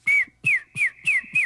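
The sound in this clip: A whistled imitation of a bird call, made as a party trick: five short, bright whistled notes, each sliding downward, evenly spaced and fairly loud, with no talk.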